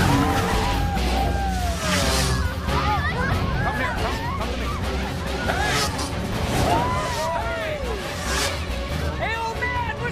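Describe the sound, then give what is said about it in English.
Quad bikes skid and circle in a clearing, with a continuous loud engine roar and repeated squeals throughout. Shouting voices rise and fall over the din. “Suddenly, several quad bikes invade the clearing and begin circling the children.”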